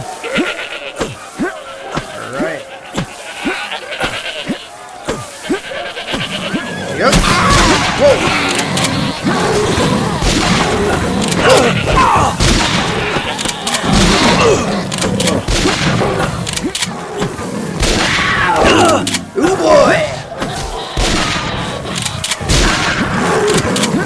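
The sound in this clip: Rifle gunshots in a video game goat hunt: sharp, repeated shots crack in a regular series at first, then give way to a busier, denser stretch of goat bleats mixed with further shots and game sounds.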